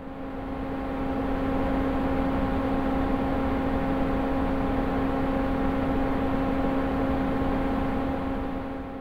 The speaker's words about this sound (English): This is the sound of your car fan, except it's not recorded inside the car. Rather, this is simulated fan noise generated inside ANSYS simulation software.